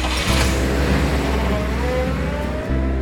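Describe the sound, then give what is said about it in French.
Engine of an Alfa Romeo convertible car, a loud, steady drone that holds its level throughout, with a brief dip near the end. “Amateur de voitures, le poète fou dénommé Blaise acheta un cabriolet Alfa Romeo”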